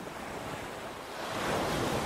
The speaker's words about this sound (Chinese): 持续的深呼吸，听着海浪的声音